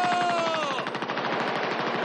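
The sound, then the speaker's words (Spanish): Rapid machine-gun fire as a plane strafes a camp in a 1970 war film. Dense, loud bursts run without a break, and a whining tone falls in pitch during the first second. “De pronto, sobre ellos aparece un avión que comienza a disparar al campamento. Todos buscan refugio como pueden.”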